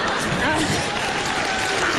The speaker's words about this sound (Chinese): 您还鼓掌呢？您就别鼓掌了。